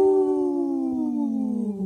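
A wolf howl: one sustained, clear tone that slides steadily downward in pitch over about two seconds, heard alone.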